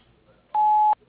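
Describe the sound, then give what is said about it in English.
Voicemail tone before a message is recorded: a single steady, mid-pitched electronic beep lasting under half a second, loud and clean against near silence. “Kindly leave your name and number at the end of the tone. Thank you. At the tone, please record your message.”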